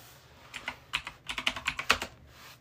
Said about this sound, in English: I just type in Robbie podcast.